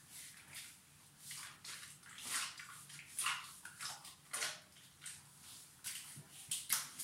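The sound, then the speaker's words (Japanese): Someone is washing their body, scrubbing carefully behind the knees, making faint, soft swishing and squishing rubs that come in many short, uneven bursts with quiet gaps between them. “すごいかすかですけど、体を洗ってる音が聞こえますかね。”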